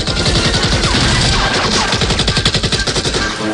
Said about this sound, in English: Guards spot Rambo round a corner and fire. Musa shoots at the guards.